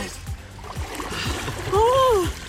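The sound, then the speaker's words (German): Splash of two people jumping together into ice-cold water, a loud burst of churning water following a few soft thuds, with a voice crying out over it. “3, 2, 1, los! Ah! Und im Wasser sind sie. Also zwei durchfrorene Gestalten”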